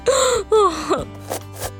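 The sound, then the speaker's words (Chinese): A woman's voice fakes crying, with a few loud wailing sobs whose pitch slides downward, followed by a couple of fainter whimpers. It is a voice imitating weeping, with no other talk. “哎呦，妈，你别哭了。 啊，我是假哭啦。”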